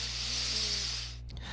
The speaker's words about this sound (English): I have to close my eyes, and I take a deep breath in